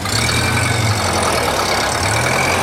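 Engine of an old hand-cranked car idling, a steady, loud low rumble that holds even throughout with no voices.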